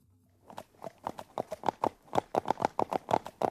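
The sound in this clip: Many crisp, evenly spaced clip-clops of a ridden horse's hooves at a steady walking rhythm, heard alone, with the beats becoming sharper after a quiet start.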